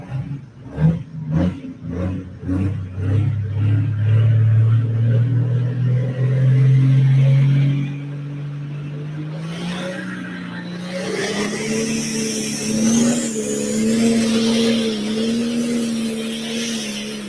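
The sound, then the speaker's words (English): A 10,000-pound pro stock pulling truck's engine at a truck pull. It opens with a quick series of loud, throaty rev blips, then settles into a heavy, sustained roar. After a dip in level, the roar climbs steadily in pitch toward the end. “First time ever driving a big, bad 10,000-pound pro stock.”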